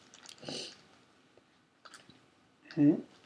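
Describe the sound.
Wet lip smacking while chewing close to the microphone, a few soft, quiet smacks spread out, with the last one the loudest.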